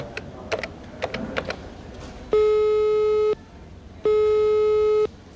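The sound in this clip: Telephone call tones while dialing: a few quick button clicks, then two long, steady, buzzy tones of about a second each, separated by a short pause, with no talk.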